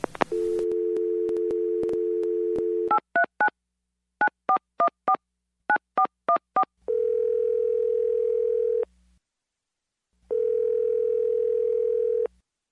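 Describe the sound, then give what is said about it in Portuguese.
Sounds of an intercepted telephone call: a steady dial tone, then many touch-tone dialing beeps in quick groups, followed by two long ringing tones separated by a pause. “É uma interceptação telefônica”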